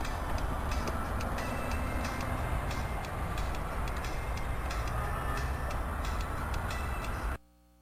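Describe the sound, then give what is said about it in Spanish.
Rail train rumbles past with a steady, dense roar and irregular clicking and clacking from the wheels and cars, holding at an even loudness before cutting off abruptly near the end. “va la... va ¡ahí viene el tren! ¡Me pongo al medio del tren!”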